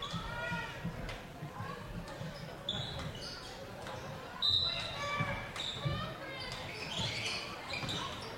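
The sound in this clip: Basketball being dribbled during a game: a run of rubbery bounces at a quick, uneven rhythm on a hard court, with a commentator talking over the play throughout.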